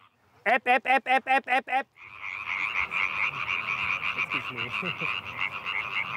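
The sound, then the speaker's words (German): Tree frogs croak at night, about thirty of them: a single frog gives seven rapid, evenly spaced pulsed croaks, then after a short pause the group bursts into a dense, continuous chorus of overlapping rasping calls. “Es ist Stille, einer fängt an und 100 kommen dazu. Etwa 30 Laubfrösche performen heute.”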